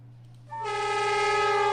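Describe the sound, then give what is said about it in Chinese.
A horn sounds from a freight train carrying 66 containers of imported alfalfa as it departs a Tianjin container station, a steady, loud, sustained tone starting after a short pause, with a low hum underneath. “装载着66个集装箱、1716吨进口苜蓿草的铁路货运班列由中铁天津集装箱中心站发出”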